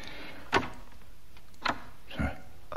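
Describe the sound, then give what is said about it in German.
A door opening, heard as three short clicks and knocks from the latch spaced over a few seconds, the last one duller and lower. “Die Tür ist offen.”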